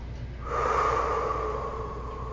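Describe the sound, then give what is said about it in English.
People sitting upright with arms and legs uncrossed take a deep breath. A single long, airy inhalation swells in after a quiet start, holds, then eases slightly toward the end. “Take a couple deep breaths.”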